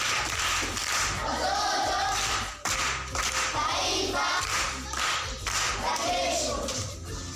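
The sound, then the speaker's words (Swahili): Clapping from a crowd for a primary-school pupil competing in a quiz after a correct answer: dense, steady hand claps that run the whole stretch, with one short dip partway through before the clapping picks up again. “Makofi kwa mjomba.”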